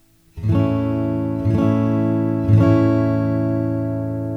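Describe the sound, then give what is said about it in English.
An A chord on guitar, fretted at the second fret on strings four, three and two. It is struck three times at an even pace, and each chord rings on before the last slowly fades. “So the A chord is going to be all in the 2nd fret. You're going to use fingers 1, 2, and 3, and you're going to press on strings 4, 3, and 2. And it should sound like this.”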